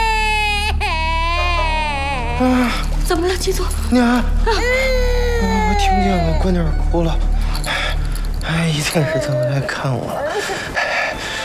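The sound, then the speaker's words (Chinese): A baby girl cries loudly and continuously, her high wailing sliding up and down in pitch and breaking into whimpering sobs, with other sounds mixed in near the end. “娘， 我听见了，闺女哭了。”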